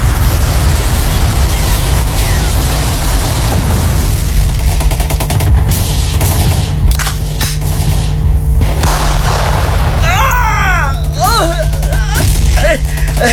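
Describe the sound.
Gunfire and explosions fill a shooting video game set in a fight against Dutch forces, with a loud, continuous din of battle rumble and blasts throughout. A voice briefly cuts in near the end.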